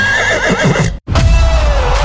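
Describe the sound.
A horse at a race whinnies in a high, wavering neigh. A brief silent break follows, then a longer, lower drawn-out tone over noisy background.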